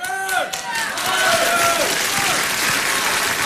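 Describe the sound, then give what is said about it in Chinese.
Audience applause for performers on stage: a dense, steady wash of clapping that swells after a brief voice at the start and holds at an even level to the end. “我这掌声我给您要的呀。”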